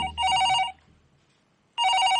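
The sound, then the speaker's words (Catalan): A telephone rings with an incoming call from a friend: two loud, bright, trilling bursts of ringing separated by a short quiet gap. “De cop, en Laszlo rep una trucada d'un seu amic.”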